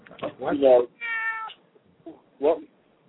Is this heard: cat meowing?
yes

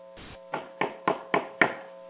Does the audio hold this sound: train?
no

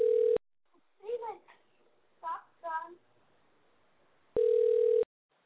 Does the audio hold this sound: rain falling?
no

